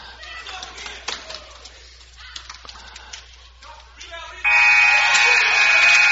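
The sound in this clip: A basketball arena's end-of-quarter buzzer in a tied game sounds as a loud, steady electronic blare lasting nearly two seconds. Softer crowd noise with scattered claps comes before it.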